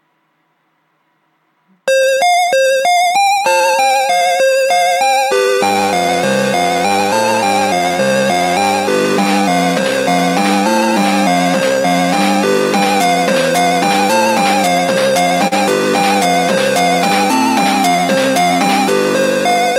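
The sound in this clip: A self-made music track composed in a tracker plays beeping synthesized tones in a repetitive pattern. Sparse high notes open after a short silence, then lower parts join for a full, loud, multi-voice texture that continues steadily.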